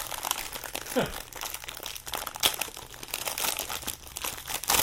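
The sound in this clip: Crinkling and rustling of a plastic package pulled from inside an Instant Pot Smart WiFi 6-quart pressure cooker, holding silicone mitts; a steady crumpling noise runs throughout, broken by a few sharper crunches.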